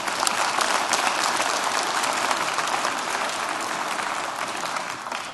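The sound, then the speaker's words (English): A church audience applauds: dense, even clapping from many hands holds steady for about five seconds, then thins and fades at the end. “Let's all put our hands together.”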